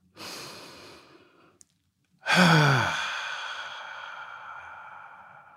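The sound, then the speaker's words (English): A slow, deep breath: a soft, airy inhale, a short pause, then a longer, louder sighing exhale that fades out gradually. “So, if you're ready, let's take a deep breath.”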